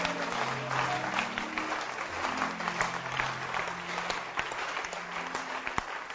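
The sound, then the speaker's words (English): Congregation clapping hands at a church gathering: dense, steady applause of many hands that holds at an even level throughout, with no speech over it. “You can clap your hands now.”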